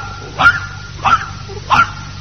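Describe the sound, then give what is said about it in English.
Dog barking three times at an even, steady pace, each bark short and sharp with quiet pauses between. “Every time you said a number, the dog barked it.”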